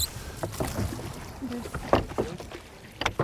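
Oars dip and pull through water as a rowing crew tries to stroke in unison, producing a series of irregular splashy swishes and knocks of moderate loudness.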